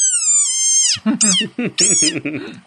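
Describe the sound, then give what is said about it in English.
Desert rain frog call: a long, high, squeaky whistle that slides slightly downward, followed by a quick, stuttering run of shorter chirping squeals, loud and alone. “go look up a desert rain frog and watch the video of this thing making this noise.”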